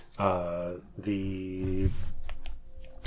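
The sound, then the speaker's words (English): A small game piece is dropped into a pile of dice. After a stretch of voiced sound, a brief clatter of sharp, light clicks follows near the end. “Sorry, I dropped the Eye of the Storm into my dice. I was fiddling with it. That's on me. Sorry for the noise.”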